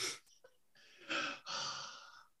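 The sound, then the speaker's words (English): A sharp, breathy inhale as someone composes themselves after crying, with a few faint gasping breaths that build into a longer, louder drawn-in breath. “I love the way you had to take a sharp inhale then to just compose yourself.”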